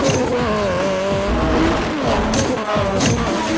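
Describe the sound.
A scientist's prototype clean-running car speeds away, its engine roaring loud and steady with a wavering, whining pitch throughout.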